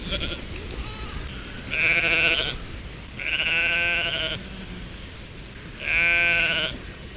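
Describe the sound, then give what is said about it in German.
Three loud, drawn-out sheep bleats with quiet pauses between them, each a wavering, nasal cry over a faint background. “Denn eins dieser Schafe hat tatsächlich eine Stimme, die mich an einen alten Freund erinnert. Schafe haben ja so Stimmen.”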